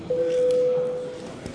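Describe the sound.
A single steady electronic tone signals voting mode in a parliament chamber, holding one even pitch for about a second before it fades into low background noise.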